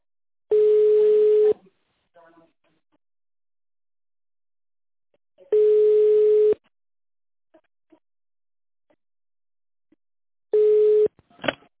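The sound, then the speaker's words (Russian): Telephone ringback tones sound while a call to a company's reception connects: three long, steady, mid-pitched tones, each about a second long and evenly spaced by several seconds of near silence, with only a few faint blips between them. “Дождитесь ответа секретаря или наберите добавочный номер сотрудника. Соединение с секретарем.”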